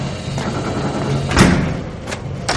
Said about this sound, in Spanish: Junior abre la puerta y entra seguido de Miles y Dave.